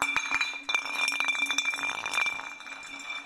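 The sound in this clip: A glass bottle clinks on the floor as someone slips on it: a few sharp, quiet clinks with a thin ringing glassy tone, heard alone without speech.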